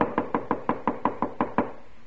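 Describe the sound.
Pounding knocks on a hotel room door: ten rapid, evenly spaced blows in a steady rhythm, each a dull, hollow thud of moderate loudness.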